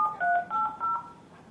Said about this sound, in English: Do you want to try to dial in?